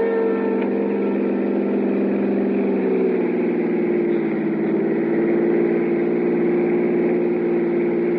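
A car engine runs as the car pulls up, giving a steady, unbroken low drone that holds a constant level throughout.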